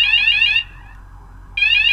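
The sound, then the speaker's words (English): A fire alarm going off with a loud, harsh, high electronic tone that cuts out briefly and then sounds again. “That's our fire alarm going off, but hopefully it's a false alarm.”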